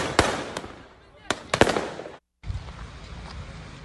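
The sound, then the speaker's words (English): Kalashnikov rifles fired into the air during a riot near a police station crack out about five sharp shots in two uneven bursts over a dense, noisy background. “And the mandatory, you got to fire off some Kalashnikovs, right? Middle of the air.”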